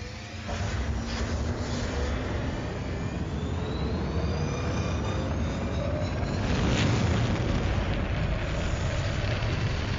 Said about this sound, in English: Blast off north. Calculating route to destination.